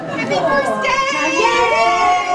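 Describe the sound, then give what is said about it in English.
School staff cheer and call out to welcome children off the bus on the first day at an elementary school in Charles City, Virginia, a lively, continuous mix of raised voices. “Staff blew bubbles and cheered to welcome kids, like Kingsley Stewart.”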